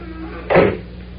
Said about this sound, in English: The door is slammed shut, and the black-clad figure of La Pantera is hidden from view.